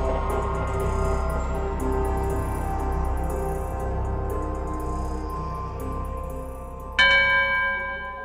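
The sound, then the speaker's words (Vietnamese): A temple bell at a pagoda gate hums with a deep, lingering resonance, its tones slowly fading before a fresh strike near the end sets off a brighter, ringing chime. No voices are heard. “Tiếng chuông ngân nga trầm bổng len lỏi qua từng tán cây liễu được trồng hai bên cổng chùa.”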